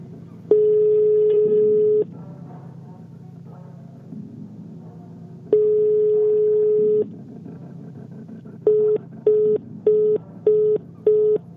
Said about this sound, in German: Hastig wählte ich die Rufnummer meiner Oma.